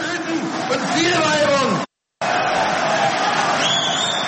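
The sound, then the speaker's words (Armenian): A crowd at a far-right rally in Germany roars and shouts loudly and continuously, with raised voices calling out over the noise and a brief cut of silence partway through. “Աջազգայնականների հավաքին ներկա գերմանացիները բուրն ու երկարատև ծափահարություններով են արձագանքել, ոմանք անգամ բացականչել են թուրքերին պետք է արտաքսել։”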